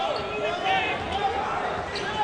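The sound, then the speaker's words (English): Basketball dribbling on a court during a game, the bounces blending into a steady, even wash of court noise with no clear individual hits standing out. “Dribbles around to the right wing. Guarded closely by Lily Gill. Now hesitates. Couple crossover dribbles through the legs.”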